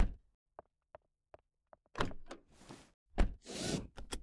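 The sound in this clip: A door is shut: a few soft clicks of the handle and latch come first, followed by heavier thuds and a short rushing scrape as it closes.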